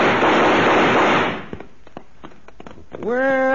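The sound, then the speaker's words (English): A loud sustained burst of gunfire, shots fired over people's heads, lasting over a second, followed by a few faint clicks and a brief voice at the end. “shoot over their heads”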